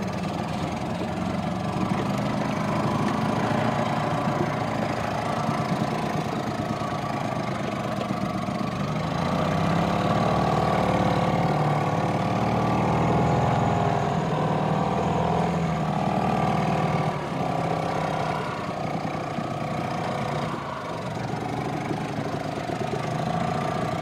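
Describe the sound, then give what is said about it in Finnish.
An outboard boat motor runs for about 24 seconds, a steady, mid-pitched mechanical drone with a slight knocking rattle that holds at an even loudness from start to finish, with no talk over it. “Mä nyt päin perämoottorin käyntiin.”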